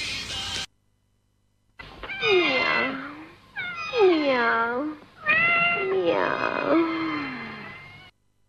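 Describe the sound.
A cat meowing: three long, wavering meows, each bending down and back up in pitch, after a brief opening sound and a short silence.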